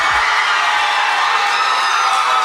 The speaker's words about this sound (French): Et la foule en délire qui applaudit la grande gagnante de la 30e édition des Francouvertes.